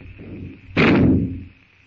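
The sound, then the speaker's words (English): A single gunshot in the jungle: one sharp, loud blast that cracks out suddenly and decays over about half a second, set against a faint steady background hum before and after. “With the shot, the jungle noises stop.”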